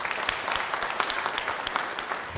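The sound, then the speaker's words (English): Audience applause for a team returning from Baltimore, a dense, steady patter of many hands clapping at an even level with no voices standing out. “You can clap.”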